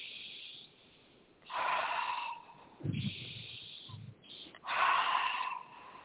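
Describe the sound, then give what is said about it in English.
Deep, slow breathing during a spoken prayer for calm and healing: a few soft, breathy swells that rise and fall in loudness, with quiet gaps between them and no talk. “breathe, deep breathing, breathe, just breathe.”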